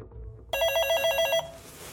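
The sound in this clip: A telephone bell rings in one bright, rapidly trilling burst that stops abruptly, over faint background noise, before a call is answered.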